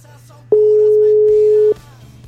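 A telephone line tone while placing a call: one steady, mid-pitched beep lasting just over a second, with a faint low hum before and after.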